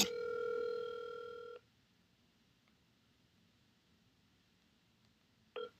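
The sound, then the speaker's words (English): Ring tone of an outgoing phone call, dialled repeatedly: one steady tone of about a second and a half, a long gap of faint hiss, then the tone returning at the end. “Just gotta keep calling. Just ignore and keep calling.”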